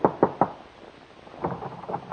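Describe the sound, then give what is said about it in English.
Knocking on a door: three sharp raps in quick succession, a short silence, then a softer, faster run of several more knocks, alone with no voices. “Your hand trembles as you knock on the door.”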